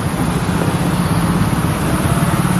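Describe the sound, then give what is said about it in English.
Street traffic in Barranquilla, Colombia, with a motorcycle and many cars going by, heard as a steady, loud, rumbling wash of engine and road noise with no single pass standing out. “the sound of the motorcycle, the passing by of many cars, the murmur of voices,”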